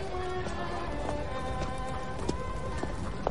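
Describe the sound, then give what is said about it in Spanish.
A horse-drawn carriage passes a tree-lined mansion at night: a steady, dense clatter of hooves with a low rumble underneath, the clops running continuously and evenly at moderate loudness with no voices. “De noche, un carruaje pasa junto a una mansión rodeada de árboles.”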